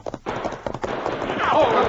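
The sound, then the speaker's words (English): Hoofbeats of horses being urged off a trail and up a bank, a brief flurry of clattering clip-clops that quickly merges into a continuous scuffle. “The outlaws turned off, urging their horses up the bank until they had gained the cover of the trees.”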